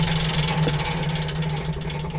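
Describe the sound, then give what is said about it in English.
A game wheel spins during a word game, its clicker ticking rapidly and evenly throughout over a constant low hum. “Spin the wheel again”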